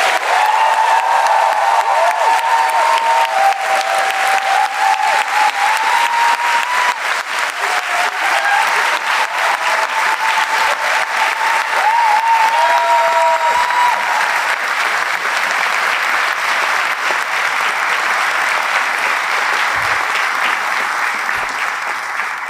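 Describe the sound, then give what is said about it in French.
Sustained applause from a live audience in a hall greets a team of film commentators, a thick, even roar of clapping that continues loudly and steadily for over twenty seconds without pause. “je vais vous demander, même si ça vous a déjà été demandé, mais vous avez, l'air d'être un public super, de réapplaudir à nouveau l'équipe de Pardon Cinéma.”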